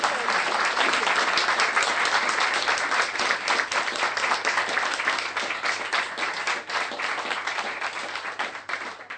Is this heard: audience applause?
yes